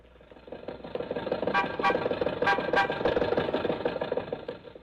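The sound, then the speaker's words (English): An old Maxwell car engine running, a rough, rattling mechanical drone at moderate loudness with a few sharper sputtering coughs in the middle. “Mary, Don, and I got in the Maxwell, and Rochester drove us over to Mr. Mortimer's office on Hollywood Boulevard.”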